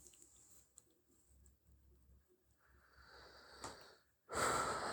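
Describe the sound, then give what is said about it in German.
A deep breath taken during a quiet, reflective moment: a soft, breathy draw of air swells gradually, then a louder rush of breath bursts out at the very end. “Oh, jetzt kommt ein tiefer Atemzug”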